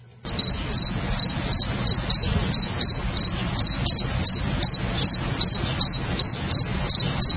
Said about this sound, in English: So, let's have it. Where's the crickets?